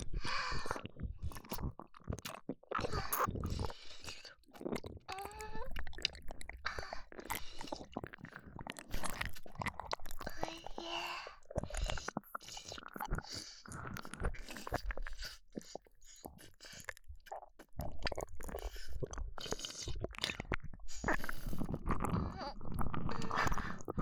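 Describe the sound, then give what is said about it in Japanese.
Someone eats an ice pop with many moist, crunchy bites and smacking chews, close and continuous with brief pauses. “アイスキャンディー。おいしい。甘くて口の中とろける。”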